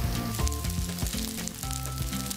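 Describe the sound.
Eggplant sizzles as it is held over heat to soften it for rolling, giving a steady, faint, continuous crackling hiss without pauses and without any talk.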